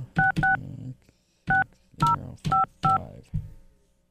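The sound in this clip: Touch-tone beeps as a telephone number is dialed: six short two-tone electronic pips in an irregular rhythm, two quick ones, a pause, then four more, followed by a faint click.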